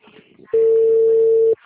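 A telephone call failing to go through gives one steady mid-pitched tone instead of ringing. It holds unbroken for about a second, with faint background noise before and after.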